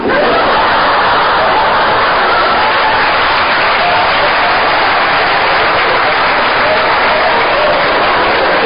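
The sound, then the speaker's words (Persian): An audience claps in dense, steady, loud applause that continues without a break for the whole stretch. “شما با این دست زدنتون”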